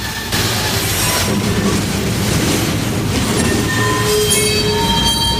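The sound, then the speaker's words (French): Train wheels squeal on railway rails over a loud, continuous rolling rumble. Thin, high-pitched squealing tones run steadily through the whole stretch. “C'est des rails de chemin de fer.”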